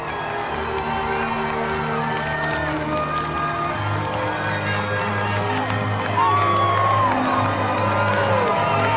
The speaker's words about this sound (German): Die Menschentraube steht klatschend um die beiden herum.